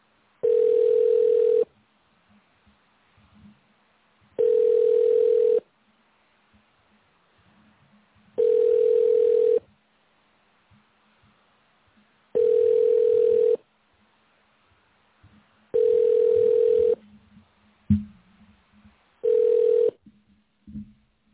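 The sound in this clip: A telephone ringback tone plays on a call that goes unanswered: six steady, mid-pitched tones, each about a second long, separated by roughly three seconds of near silence. The last tone is shorter, and a faint click comes just before it.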